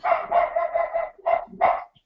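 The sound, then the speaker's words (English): A female dog barks excitedly, as if at a possible intruder, in a quick burst of a few loud, mid-pitched barks with short gaps between them. “I really don't know what she's barking at. She's kind of going crazy.”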